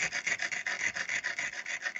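Spoons scrape repeatedly in a fast, steady rhythm, producing many short, raspy metallic strokes of even loudness with no voices.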